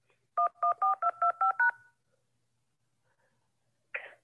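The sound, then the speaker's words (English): Seven telephone keypad tones enter a voicemail PIN, each a short, clear two-pitch beep in a quick, even sequence. A brief, noisy blip follows after a silent pause. “Enter your PIN followed by pound.”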